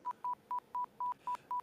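Telephone keypad beeps, pressed repeatedly and steadily: seven short, identical tones at the same pitch, evenly spaced in a quick, regular rhythm, with no voices.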